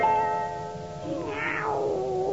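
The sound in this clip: A cat meows once in the second half, a single drawn-out call that falls in pitch at the end, fairly clear against a quiet background.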